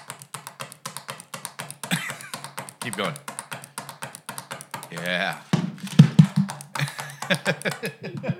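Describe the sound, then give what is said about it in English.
A person imitates a pen being clicked on a table with a rapid, steady stream of many small, sharp clicks. People talk over parts of it. “And he likes to click his pen when he's making a comment, too. Yep. Oh, yeah. There it is. He just sits it on the table and just goes... Here, I'll make the noise for you.”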